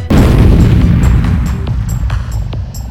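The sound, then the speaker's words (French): A grenade explodes in a video game: one heavy, loud boom that rolls into a long, low rumble. A few sharp cracks sound in the fading tail. “Attention, grenade! À terre!”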